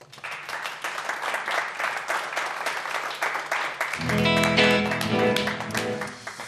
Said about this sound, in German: Also schon mal großen Applaus für Ihren.